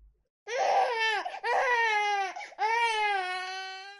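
A sick baby wrapped in a blanket cries inconsolably in three long, loud wails with brief catches of breath between them. The last wail runs to the end.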